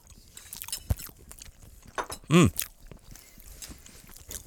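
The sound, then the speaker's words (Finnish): Someone chews a grey liver casserole flavoured with salmiakki (salty liquorice), making soft, moist bites and crunchy smacks at an irregular pace, with one short voiced hum rising briefly in the middle. “Varmaan vähän harmaampaa kuin normaali maksalaatikko. Okei, maistetaan.”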